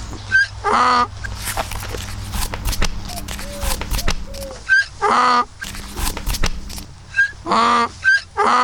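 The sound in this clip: A donkey brays in a few loud, rasping hee-haw bursts, each one a harsh, strained see-saw of tones. Quieter rustling and shuffling fills the gaps between the brays.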